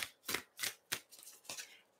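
A deck of self-love affirmation cards being shuffled, heard as several quick, crisp riffling bursts in an uneven rhythm, fairly quiet and with no voices.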